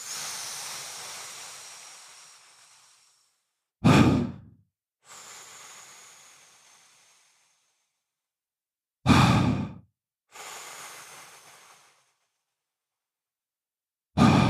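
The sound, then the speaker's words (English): Straw breathing repeats in three cycles: each long, hissing inhale lasts about three seconds and ends in a short, abrupt exhale that drops out sharply. Quiet gaps separate the breaths. “So the straw breath sounds something like this.”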